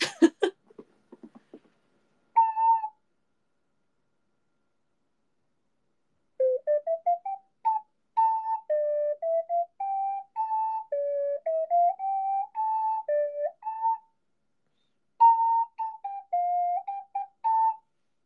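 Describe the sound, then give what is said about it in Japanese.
An ocarina plays the folk song Donna Donna, a slow, mournful melody of pure, rounded single notes in short phrases separated by pauses, preceded by a few sharp clicks at the start. “オカリナでドナドナ吹くのおもろい。なんか悲しくなってくる。”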